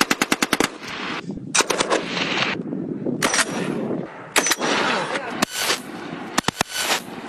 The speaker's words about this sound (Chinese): 狙击枪、狙击榴弹发射器、步枪等多型火器协同实施打击。